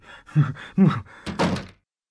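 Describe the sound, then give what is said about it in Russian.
Door being opened in a dramatized Bulgakov play: a few hollow clunks and thuds in quick succession, then quiet. “Зачем же вы открыли дверь? Я вас просил не открывать.”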